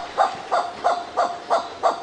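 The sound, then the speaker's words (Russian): A kagu gives dog-like barking cries: six evenly spaced, fairly loud harsh barks in a steady rhythm, with no other sound. “Ну, давайте послушаем, как кричит кагу.”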